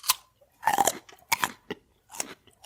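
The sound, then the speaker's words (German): Raw kohlrabi being chewed, with several crisp, wet crunches in an uneven rhythm, fairly faint, with short pauses between bites. “Kannst du mal vernünftig essen? Kannst du mich mal essen lassen, wie ich möchte? Und so Kohlrabi mümmelt man halt.”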